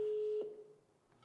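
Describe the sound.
A telephone ringing tone on an unanswered call sounds as one clean, mid-pitched steady beep that cuts off after a moment, leaving faint line noise.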